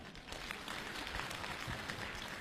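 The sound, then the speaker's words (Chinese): Audience applause at a crosstalk comedy show, a dense, steady patter of clapping that holds at an even level throughout. “大家，鼓掌再热烈一点好不好？”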